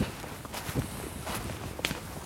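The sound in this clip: Footsteps of people walking further in at the Berlin city edge: faint, irregular steps over steady background noise.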